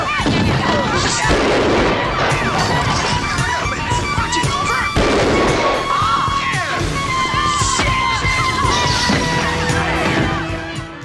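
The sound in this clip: Gunfire in a film scene with shots fired at close range: loud, dense, chaotic bursts of cracks and blasts that run almost without pause.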